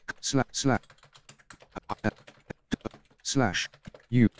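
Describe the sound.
Typing a command on a computer keyboard: many quick, uneven key clicks in irregular runs, with brief bursts of a voice breaking in among them.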